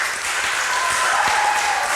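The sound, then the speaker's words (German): Audience applause after a presentation at a contest judged by applause: dense, steady clapping from a crowd, a bright continuous hiss of many hands at an even level for the whole two seconds, with no talk over it. “Und jetzt bitte den Applaus für die siebte Präsentation.”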